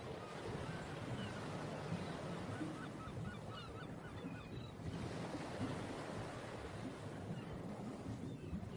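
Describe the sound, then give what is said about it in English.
Ocean waves crash in a steady, full wash of surf, with a few faint seagull calls overhead rising above the rolling noise. “Can you hear the seagulls overhead and the crashing waves?”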